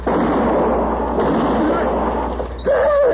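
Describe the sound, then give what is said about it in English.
Gunshot in a Western radio drama: a loud, noisy blast that fills most of the moment, followed near the end by a voice starting to speak. “You shot my husband.”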